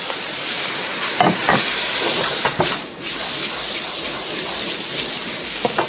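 Pork liver and vegetables sizzle in a frying pan with a loud, steady hiss. A few sharper crackles and spits pop up through it for the whole stretch.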